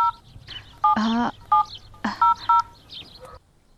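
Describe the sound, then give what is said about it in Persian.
Telephone keypad tones sound as a phone number is dialled: a short series of steady electronic beeps, one held longer than the rest, with no talking. “تو صبرم یال به فاطمه زنگ میزنم”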